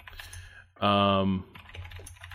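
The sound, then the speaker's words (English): Keyboard tapping while someone searches for something on a computer: light, quick clicks mixed with talk, broken by one brief louder burst. “Sorry for the tapping. I'm trying to find this thing right now.”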